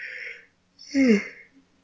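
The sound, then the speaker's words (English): A single human yawn, a breathy voiced swell lasting about half a second with a downward-sliding pitch, following a short fainter sound. “Edit out that yawn.”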